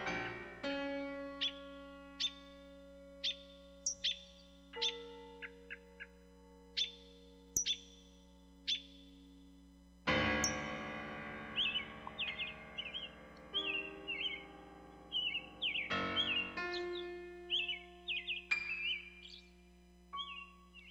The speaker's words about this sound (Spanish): Entre todos los sonidos de los pájaros destaca inconfundible el silbido del mirlo.